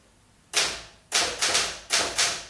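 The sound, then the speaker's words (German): Keys strike on a Remington typewriter, five crisp, percussive clacks in an uneven rhythm, each ringing briefly before the next. No voices are present. “Schreibmaschine? Ja, eine Remington. Was machen Sie denn da? Bisschen tippen.”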